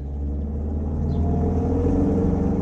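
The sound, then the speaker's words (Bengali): Steady, loud engine rumble of a taxi driving at top speed through city streets on a morning with light traffic, a continuous low drone with no clear pauses or voices. “একে সকালে traffic কম তার উপর ফেলুদা আবার taxi ড্রাইভারকে বলল top স্পিডে যেতে”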